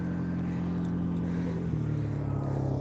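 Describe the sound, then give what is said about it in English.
An off-road vehicle of the kind local kids ride passes by, its engine a steady low droning hum that shifts slightly partway through. “that's an off-road vehicle that people, the kids use here.”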